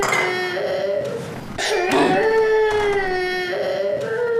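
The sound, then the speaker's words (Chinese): A child cries in drawn-out, wavering wails that are loud and nearly continuous, with a short catch partway through before the sobbing resumes. “你可别哭了”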